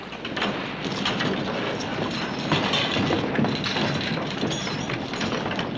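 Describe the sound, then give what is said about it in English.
A ship's winch starting up aboard a salvage vessel: a steady, dense mechanical rumble with rapid clattering and ticking running continuously and fairly loud, with no voices. “Start up that winch.”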